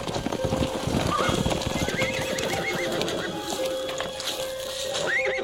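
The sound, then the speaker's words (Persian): A horse neighs in high, wavering whinnies while its hooves clip-clop in a steady patter of many hoofbeats underneath; the animal is a nimble riding horse. “من ازشون خواستم که برامون یه اسب چابک بفرستن.”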